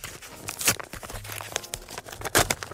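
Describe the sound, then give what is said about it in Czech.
A paper envelope is torn open to take out a dictaphone, with a few sharp ripping bursts among softer crinkling and handling rustles. “Teď jsem tady vytáhnul z obálky diktafon, takže uvidíme, co na něm bude nahráno, tak si to jdeme pustit.”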